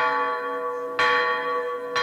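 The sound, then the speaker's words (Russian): A large bell is struck to call people together. Each clang blooms into a rich, sustained ringing that carries into the next, and two fresh strikes land about a second apart over the lingering hum. “вдарь в колокол, зывай народ.”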